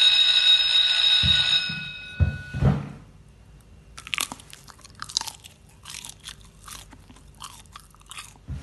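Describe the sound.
Wet, squelchy chewing of slightly mushy food, with many irregular smacking and crunching bursts at a moderate level, preceded by a brief ringing tone and a few thumps.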